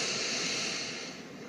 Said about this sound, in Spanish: toma aire.